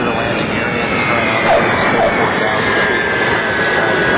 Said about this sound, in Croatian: Avion je jedno od najboljih sredstava da što pre stignete na Čobići aerodrom